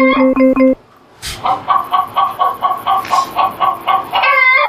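Chicken clucking, a rapid run of many short, regular clucks following a brief burst of harsher calls and a short pause.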